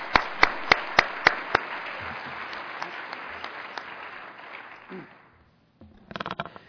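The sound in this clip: Audience applause welcoming a speaker at a lecture, opening with a few sharp, loud claps over a dense patter that thins and fades to silence.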